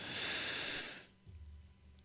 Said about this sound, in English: Make sure you get that air all the way down to the bottom of your lungs. Hold it in there. You ready? However much you can get in there. Come on. Draw it in.